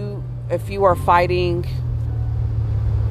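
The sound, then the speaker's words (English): Car engine rumble as a car passes close to a pedestrian, a steady low drone running the whole time while a voice speaks briefly over its start. “this car just almost hit me.”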